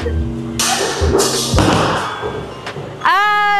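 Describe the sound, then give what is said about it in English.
A bowling ball is thrown down the lane in a bowling alley by a left-handed bowler. A few heavy thumps and thuds come amid talking voices. “So ito try natin yung first try natin here sa bowling. Kaliwete ako, by the way. So, to try natin to.”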